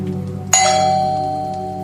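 A doorbell is pressed once, giving a single bright ding that rings on and slowly fades over a steady background hiss.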